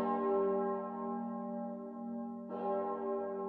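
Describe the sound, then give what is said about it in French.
A clock or church bell strikes, its deep tone ringing on with a long, slowly fading hum before a second strike lands near the end and rings on in the same way. “8 coups ont sonné.”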